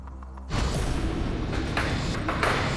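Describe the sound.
Mechanical rumble of the Tipping Point coin pusher machine on the quiz show. A dense, steady noise starts abruptly after a brief quieter lead-in and carries on with faint thuds and pings scattered through it.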